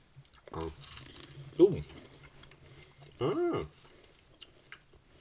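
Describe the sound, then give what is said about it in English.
Biting and chewing a crisp, dry pastry: a few short, crunchy bites and chews, fairly quiet, with brief murmured voice sounds between them. “It's very crisp. Mm-hmm. So a very dry pastry.”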